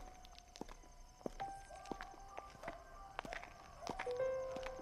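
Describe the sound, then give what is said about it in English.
Footsteps on an early morning walk through Tangier in a radio drama: many faint, irregular steps amid quiet ambience, with thin tonal sounds now and then. “One of my favorites is Kasbah Kelly going for an early morning walk as Tangier awakens.”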